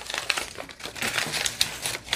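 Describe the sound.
Paper crinkles and rips as it is torn along a tearing ruler, in many quick, crisp rustling bursts with uneven rhythm.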